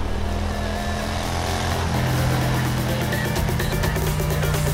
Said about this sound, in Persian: سوار موتور شد و هندل زد